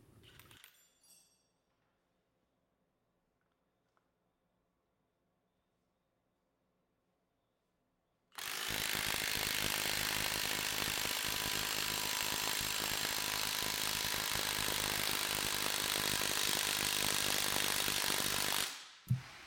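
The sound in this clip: A maxed-out Milwaukee M18 impact wrench drives a grade 12.9 bolt: after a long quiet stretch with faint knocks, loud, dense rapid hammering runs steadily for about ten seconds, then cuts off abruptly.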